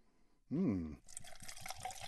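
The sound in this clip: Bourbon whiskey poured from a bottle into a glass: a short burst, then a steady splashing trickle of liquid for about a second and a half.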